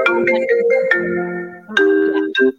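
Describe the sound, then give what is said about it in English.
A phone ringing with a melodic electronic ringtone, a bright tune of several distinct notes playing loud and on its own. “Who's calling? Are we going to answer?”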